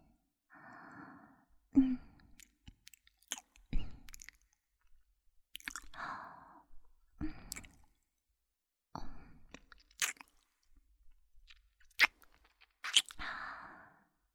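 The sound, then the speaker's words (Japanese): Ear-nibbling and sucking ASMR: soft, wet mouth sounds, gentle nibbles and sucking smacks, come in a few separate bursts, broken by breathy sighs and quiet pauses. “耳たぶも甘噛みしたり、チュパチュパ吸いますわね。”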